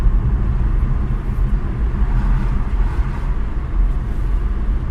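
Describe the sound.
Steady low road rumble from a car moving at about 40 km/h with its windows open, with traffic noise around it, forming a continuous loud drone without clear separate pass-bys.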